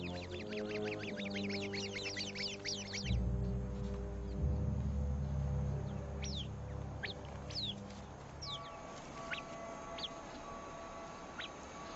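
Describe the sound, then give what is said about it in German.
Alarm calls of a bird flock rallying to defend against a snake: a fast burst of repeated sharp chirps, then scattered high whistles and thin piping notes over a steady low drone. “Der wachhabende Vogel schlägt sofort Alarm. Der Schwarm kommt zur Verteidigung zusammen.”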